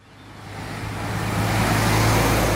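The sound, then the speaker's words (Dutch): Cars speed past on busy Independence Square in Paramaribo, a continuous traffic roar that swells steadily louder and holds at full strength, with no voices. “U hoort allerlei auto's voorbij razen hier aan het drukke Onafhankelijkheidsplein in Paramaribo.”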